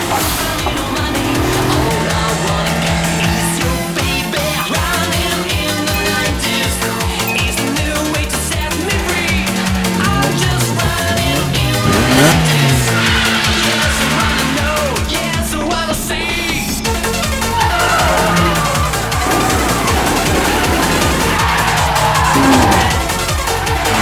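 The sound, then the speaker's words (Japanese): Loud, continuous tire squeal and engine roar from a car drifting on all four wheels at full throttle with almost no countersteer, sustained without a break across the whole stretch. “そして近くで見ているとまるで芸術だな。あのドリフトは”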